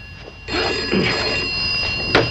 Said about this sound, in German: Tarling erhält in seiner Wohnung einen Anruf.